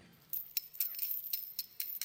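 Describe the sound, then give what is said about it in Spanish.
Metallic clinking and jangling from a strong, store-bought metal chain being handled: a series of short, bright rattles, fairly faint, coming in irregular bursts with quiet gaps between. “¿Usted qué cree si yo empiezo a darle a esta cadena? ¿Cuánto tardaré para romperla con esto? Es una cadena fuerte.”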